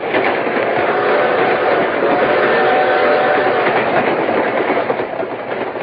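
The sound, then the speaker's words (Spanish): A train riding on rails during a trip to a hacienda, heard as a continuous loud rumble with rattling wheel noise that stays steady from start to finish, with no voices. “abordaron el tren para dar una vuelta a la hacienda.”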